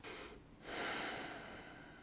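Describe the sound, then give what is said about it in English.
Deep breaths taken slowly before a spoken message, heard as soft, airy rushes of breath, with a fuller swell in the second half. No voice is heard. “And so I will take a few deep breaths and then I will start the message.”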